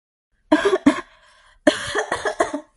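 Coughing from someone who has choked on water: two sharp coughs, a brief pause, then a rougher burst of several more, loud and alone.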